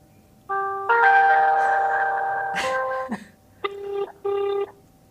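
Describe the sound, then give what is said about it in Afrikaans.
Electronic telephone tones sound as a call is placed: one long, steady buzzing tone that grows louder after a moment, then two short bursts of the same tone. The tones are clear and stand alone, with no talk. “Kom ek skakel gou vir die na ons content manager.”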